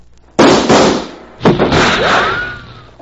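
Revolver gunshots: two sharp, loud bangs roughly a second apart, each trailing off in a long, rumbling decay.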